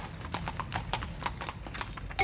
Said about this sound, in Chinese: 他立刻跳上马车，直奔先知以利沙的家。